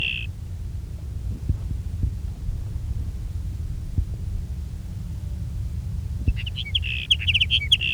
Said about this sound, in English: There's sage sparrow number two.